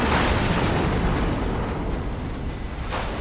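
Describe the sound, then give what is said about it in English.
A fuel tank explodes in a fire on an interstate, with flames ripping it open and burning into a container: a loud, sustained roaring rumble of dense noise that eases slightly over a few seconds, with no voices. “The flames rip open the fuel tank, then torch a hole in the container.”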